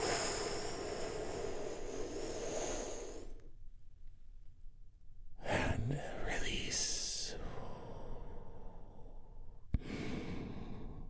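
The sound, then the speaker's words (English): A big, deep breath taken together during a relaxation exercise. A long, airy inhale leads into a quiet pause, then a breathy, whispery exhale follows, all faint. “we do that by taking a big, deep, healing breath all together.”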